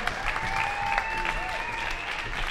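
Audience applause for a performing act at a live show: a dense, steady wash of clapping that fills the whole clip without a pause, with a few faint high sustained tones running through it.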